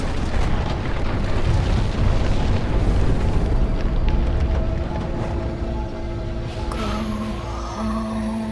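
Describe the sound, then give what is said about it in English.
A missile explodes against an invisible force field in a sustained, roaring blast. The broad rumble stays loud for several seconds, then eases slightly as steady electronic tones appear near the end. “The missile homes in, skims over the falling Turop and explodes against an invisible force field just before hitting Aurora.”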